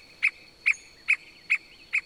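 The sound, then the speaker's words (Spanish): Calls of the Ticué or Piscua, a small, colourful, long-tailed bird: five short, high-pitched notes at an even, steady spacing, each one clear and alone against quiet background hiss. “A esta ave, los indígenas del pueblo Hidnu la bautizaron con el nombre de Ticué. Los campesinos de la región la conocen como Piscua.”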